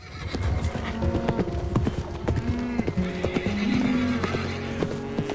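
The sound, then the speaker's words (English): Hooves clip-clop steadily as an unbridled horse trots off to join its herd, with several loud whinnies breaking in over the rhythmic footfalls. “Tyler removes the horse's bridle and bit and lets the horse ride off to join the pack in the sunshine.”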